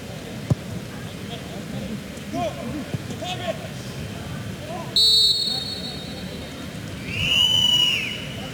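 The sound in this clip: A referee's whistle during a football match sounds in two short, shrill blasts under a commentator's steady talk and a constant background wash.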